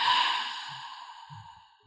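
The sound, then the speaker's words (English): One long, slow, breathy exhale that starts strongly and fades steadily over about two seconds, heard alone. “Take three big breaths in, so breathe in with me. And then exhale.”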